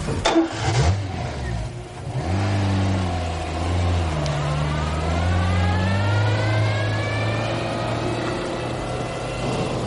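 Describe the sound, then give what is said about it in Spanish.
A car engine cranks briefly and catches, then settles into a steady running drone as the car reverses. The drone shifts upward in tone for a moment before holding an even, moderately loud hum. “Luego arranca el coche y da marcha atrás.”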